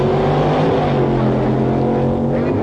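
Drag racing Chevrolets launch off the starting line, their engines roaring loudly in a thick, sustained blare with strong, steady engine tones throughout.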